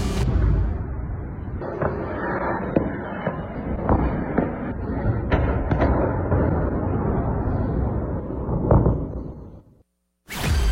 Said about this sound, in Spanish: eso que escuchamos es el bombardeo